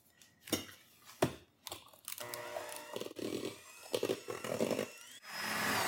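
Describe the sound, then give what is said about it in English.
Whirring motor of a mixer beating gluten-free angel food cake batter after the sugar goes in: uneven bursts and clatter at first, then a fuller, wavering hum that ends in a louder, steady rushing sound. “Now I'm not quite done mixing, but I'm going to add the vanilla in here. We're going to beat this till stiff peaks.”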